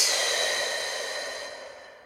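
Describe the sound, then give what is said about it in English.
A single long, airy exhale through the body during a guided belly-breathing exercise, soft and breathy, tapering gradually into quiet. “Squeeze the belly in. Inhale through your nose. And exhale.”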